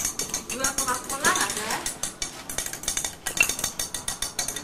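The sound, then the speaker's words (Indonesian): Spoon clinking against a glass while a syrup drink is stirred: a quick, busy run of many light metallic taps and scrapes at a fairly steady, moderate loudness throughout. “Belum diaduk nih. Diaduk dulu, ke.”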